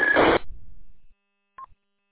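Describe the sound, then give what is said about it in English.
A radio Roger beep courtesy tone: a burst of static ends a transmission and fades away, then after a short silence comes a single brief, clear beep. “That would be a courtesy tone. It's called a Roger beep.”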